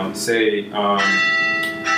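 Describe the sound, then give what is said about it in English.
Bells ringing with a festive Christmas feel, sustaining steady, bright metallic tones beneath people talking. “while the bells are ringing, making a nice Christmas sound in the back”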